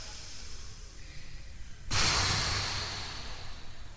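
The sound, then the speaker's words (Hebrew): An audience takes a deep breath and blows out pretend candles during a stage show: a quiet stretch gives way to one sudden, strong breathy whoosh that slowly tapers off. “קחו מלא מלא אוויר. ונשוף. עוד פעם.”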